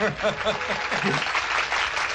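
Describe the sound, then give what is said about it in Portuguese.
Applause for Mary in a Portuguese-dubbed film: a crowd claps in a steady, dense patter, with some chuckling and voices mixed in. “Vamos, gente. Vamos aplaudir a Mary.”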